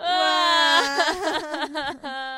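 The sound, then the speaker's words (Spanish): People crying in a studio: a loud, high, sustained wail that breaks into choppy sobbing pulses. “Dice el director que si no paramos de llorar, vamos a inundar el estudio.”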